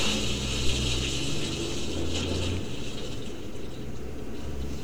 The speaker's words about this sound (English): There goes his cloaking.